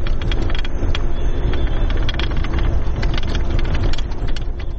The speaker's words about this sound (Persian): این صدای زره پاشخای هاموی است که نیروهای افغان آن را به شهر ترینکوت، مناطقی که تازه از وجود طالبان پاکسازی شدند، انتقال می دهند.